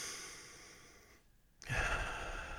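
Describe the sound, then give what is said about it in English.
A single deep breath, faint and airy, swelling up after a brief hush and then easing off as a soft rush of air toward the end. “Take a deep breath.”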